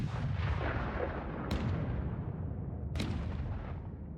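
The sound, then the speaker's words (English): Artillery fire from a creeping barrage forms a continuous, heavy, low rumble, punctuated by two sharp, cracking blasts spaced about a second and a half apart. “In theory, the artillery would shell territory just ahead of advancing forces.”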